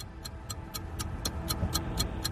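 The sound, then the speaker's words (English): A quiz show countdown clock ticks in a steady, evenly spaced run of crisp clicks, about four per second, over a low background hum. “60 seconds on the clock and your time starts now.”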